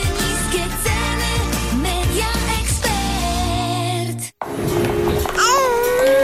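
Infant babbling: a stream of high, cooing baby vocalizations with frequent pitch glides over a continuous background, briefly breaking off near the end before resuming.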